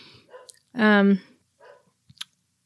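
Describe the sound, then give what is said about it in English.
A dog barks in the background: a single loud, tonal bark stands out, with a few short faint clicks and noises around it. “I don't know if you can hear the dogs barking. I hope not. They're barking in the background.”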